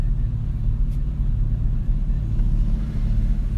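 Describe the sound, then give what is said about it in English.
A car drives along the road on the commute to work, heard from inside as a steady, loud, low rumble of engine and road noise that holds even throughout, with no clear speech. “See, I'm back in the mobile podcast, driving into work.”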